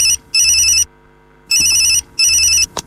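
A telephone rings with repeating bursts of a bright electronic tone, heard alone. The bursts come in pairs with short gaps between them.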